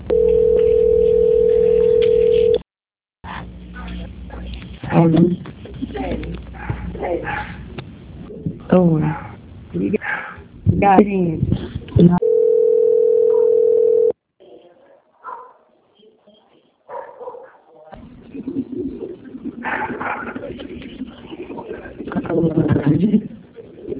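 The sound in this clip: A steady telephone tone plays while a call is on hold for transfer. It sounds twice, once at the start and once midway, and people talk on the line between and after the tones.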